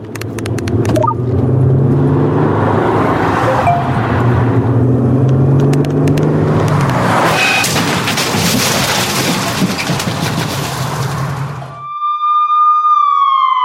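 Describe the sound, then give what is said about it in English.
A car engine drones steadily while the driver texts behind the wheel, then a long, harsh surge of noise breaks over it. A few clear electronic tones sound alone at the end. “These are the sounds of someone taking their eyes off the road. Texting while driving is more than distracting. It's dangerous.”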